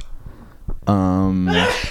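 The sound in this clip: A sneeze from someone with allergies: a drawn-out voiced intake rising into a loud, breathy burst, heard once after some low background noise.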